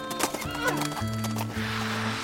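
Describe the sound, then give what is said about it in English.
A horse with a rider arriving neighs in a drawn-out whinny, with hoof clip-clops and steady low tones underneath throughout. “Just then, another rider and horse appeared in front of us.”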